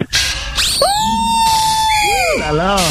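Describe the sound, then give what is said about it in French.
A woman screams loudly in long, high, sustained cries whose pitch bends and wavers, with a short burst of noise at the start. “elle a crié fort et dit écoutez-moi”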